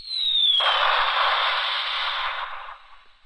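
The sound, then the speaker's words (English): A bomb-dropping explosion sound effect: a high falling whistle gives way to a loud, sustained roaring burst of noise that holds for about two seconds, then fades out. “And that was a bomb dropping.”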